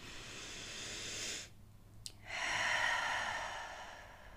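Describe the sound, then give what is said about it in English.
Deep, slow breathing during a relaxation exercise: one long, soft, airy breath, a brief silent pause, then another long, breathy stream of air, quiet and unhurried. “Let's do it again. Inhaling. And exhaling. And one more time, why not?”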